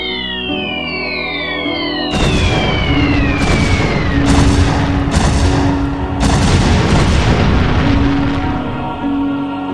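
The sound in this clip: Fireworks explode after a few high descending whistles, breaking into a loud, continuous barrage of crackling bursts and deep booms that keeps going with only brief dips.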